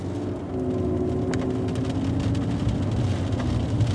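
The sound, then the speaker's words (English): A car drives along the main avenue of Mountain View Cemetery in Oakland, California, its engine and road noise forming a continuous low rumble that holds steady without breaks. “So this is the entrance, and so there's a main avenue. We are driving in Mountain View Cemetery in Oakland, California.”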